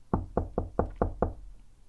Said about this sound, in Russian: В дверь постучали.